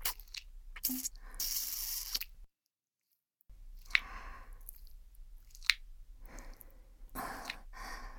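Wet mouth sounds of someone pretending to eat a listener's ear, with soft smacking, squishing and chewing bursts mixed with breathy sighs, broken by a brief silence partway through.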